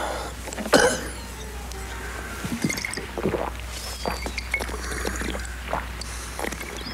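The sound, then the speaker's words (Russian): A man drinks straight from a bottle neck: one sharp bump near the start, then a few soft, wet gulps and sloshes, quiet and spread out. “Взял стоящую рядом бутылку и пьет из горлышка.”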